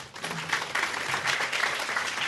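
Applause from an audience welcoming a professor to a university lecture: dense, even clapping from many hands runs steadily throughout with no break.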